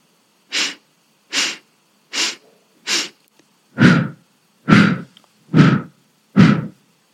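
Deep breathing, inhaling and exhaling, comes as eight evenly spaced breaths with no voices. The first four are thin and airy, and the last four are fuller and deeper.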